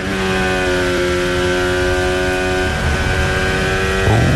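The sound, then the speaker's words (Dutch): Onboard engine of a Formula 1 car heading toward Lesmo 1 at Monza, a loud, steady, high-revving whine that holds its pitch, then dips near the end as the revs drop. “Onboordgeluiden komen bij Kimi Antonelli vandaan richting Lesmo 1.”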